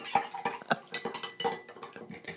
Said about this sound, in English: I'm going to take my cocktail spoon and really mix those. I'm going to put my cocktail spoon right in it.